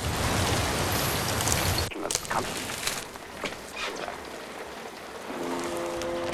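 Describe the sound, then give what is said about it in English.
Heavy rain beating down by a footbridge over a small river at the forest's edge. A dense, loud hiss fills the opening seconds, then thins into irregular spatter and drops, with a faint steady tone entering near the end. “The rain ferociously beats down on her, saturating her hood and cape, making the leaves sparkle and glisten.”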